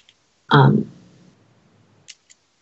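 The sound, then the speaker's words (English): A flip phone is snapped shut with one sharp, loud snap and a short fading tail, followed by two tiny faint clicks in near silence. “Click. That's snap the phone shut.”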